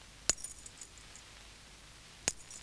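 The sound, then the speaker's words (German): Metallic clinks from a bunch of keys held by its ring and struck with a pencil as rhythm percussion: two sharp, bright strikes about two seconds apart, each followed by a short, faint jingle. “Man hält das Schlüsselbund einfach am Ring fest oder am Anhänger und schlägt mit einem Bleistift dagegen.”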